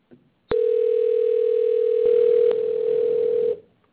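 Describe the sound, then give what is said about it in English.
A telephone dial tone holds one steady, unbroken pitch for about three seconds. It begins with a sharp click and has a couple of faint clicks partway through, then cuts off. “Still dialing. And dialing.”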